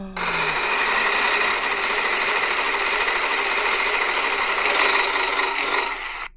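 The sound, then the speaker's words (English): A large prize wheel mounted on a wall is spun, giving a dense, rapid whirring clatter. It holds steady for about six seconds, then cuts away. “I'm going to go up to our giant wheel on the wall, and let's give it a spin here, folks.”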